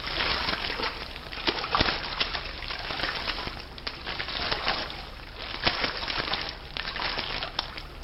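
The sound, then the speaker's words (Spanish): Sea water sloshes and rushes steadily as a rowboat is hauled ashore through the shallows. Scattered splashes and knocks rise now and then above the continuous wash. “Podéis parar. Aquí ya hacemos pie. Habrá que tirar de la barca para que no se la lleve el mar.”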